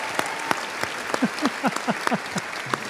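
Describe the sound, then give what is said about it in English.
Audience applause welcoming guests to a stage, a steady wash of many hands clapping with a few sharper individual claps standing out. “Ladies and gentlemen, please keep that applause going.”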